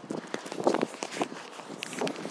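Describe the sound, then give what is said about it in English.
Footsteps walking up a road along the pavement: faint, fairly steady steps in an uneven rhythm, with no talk over them. “Okay, walking up a road now, I can't remember what it's called.”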